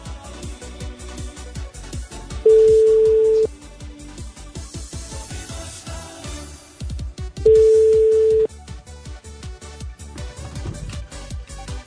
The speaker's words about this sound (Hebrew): חייגים, חייגים וממתינים.